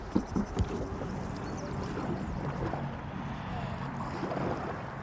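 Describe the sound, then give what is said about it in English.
Wind gusting while a canoe is paddled along a river: a steady, dense rushing roar fills the whole stretch, with a few low knocks near the start. “So we're now having to do all the work to combat that wind.”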